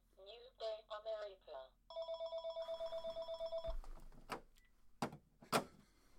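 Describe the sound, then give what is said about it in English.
An electronic telephone ringing in a rapid, evenly pulsed trill. It follows a brief stretch of talk and is followed by a few clicks and knocks. “and that is the phone going off.”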